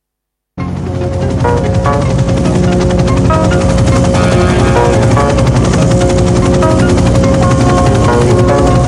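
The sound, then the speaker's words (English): Helicopter flying over an overgrown Central Park in a film scene: a loud, steady, pulsing rotor thrum begins abruptly after a short silence and continues unbroken to the end. “A second helicopter is flying alongside.”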